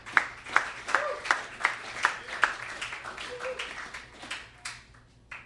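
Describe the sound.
A church audience claps to welcome a speaker up, with sharp, evenly spaced claps that are strong at first and then thin into softer, looser clapping over a low steady hum.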